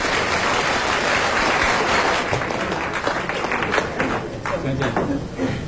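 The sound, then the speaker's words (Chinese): An audience applauds loudly at a comic crosstalk performance, a thick, continuous patter of many hands. Voices can be heard through it in the second half. “大家给点掌声。”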